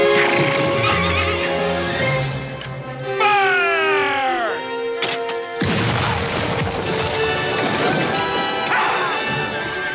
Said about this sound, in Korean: 야생마 앞에서 빨간 깃발을 휘두르지요. 더욱더 날뛰는 말, 굴러떨어지는 조셉.